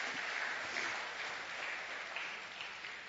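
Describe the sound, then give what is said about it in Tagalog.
A church audience applauds for the Lord during worship, a dense, continuous clapping from many hands that stays fairly even throughout. “Sige po, palakpakan natin ang Panginoon.”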